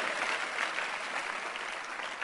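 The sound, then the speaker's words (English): A church audience claps their hands for the Lord, giving a thick, continuous burst of applause at an even level from start to finish. “Somebody clap your hands for the Lord.”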